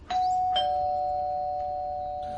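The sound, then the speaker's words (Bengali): A doorbell rings with two quick chime strikes, a ding-dong, and the second tone hangs in a long, slowly fading ring over faint background hiss. “ঠিক এমন সময় calling bell বেজে উঠল”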